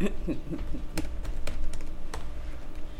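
Rapid typing on a computer keyboard, a steady stream of soft key clicks with a few sharper keystrokes standing out, fairly faint throughout.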